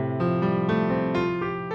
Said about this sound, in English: Before going to two new chords, he goes to an F, which he plays like this.